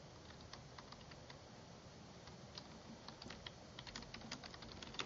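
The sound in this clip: Typing on a computer keyboard while entering a search query: many quick, light key clicks in a steady, uneven rhythm, faint throughout and with no voices.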